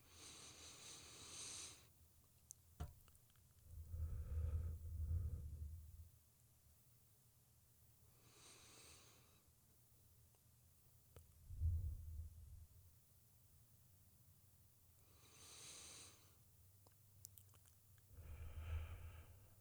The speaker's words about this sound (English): But let's breathe really quick.